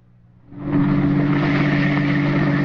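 A car drives up at a harbor dock, its engine rumble swelling over the first second and then holding as a steady, loud low drone, with no voices.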